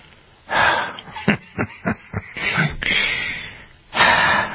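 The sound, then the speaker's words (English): A deep breath drawn in and let out: a broad, airy rush that swells and fades, a few short soft clicks, a longer steady breath, then a final loud breath at the end. “I take a deep breath”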